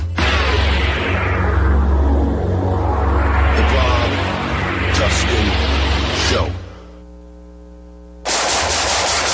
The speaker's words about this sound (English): Nice shooting.